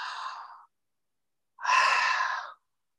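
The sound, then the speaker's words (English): Two long, deep breaths during a guided breathing exercise, each a soft, airy rush lasting about a second, separated by a short silence. The second breath is slightly louder and fuller than the first. “Take a deep breath in.”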